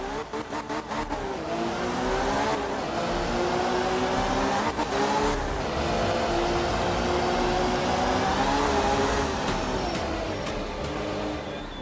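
A rally car engine in a video game revs and accelerates loudly, its pitch climbing in repeated sweeps broken by brief dips, heard alone without voices.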